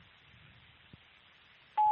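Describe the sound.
A voicemail beep sounds after a quiet stretch: one loud, steady, mid-pitched electronic tone that begins abruptly and holds to the end.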